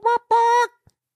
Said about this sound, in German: Nein, das war ein Huhn.